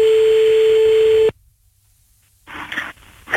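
Telephone tones as a call is dialed and rings: a loud, steady electronic tone cuts off abruptly, then after a quiet pause a few short bursts of ringing tone sound.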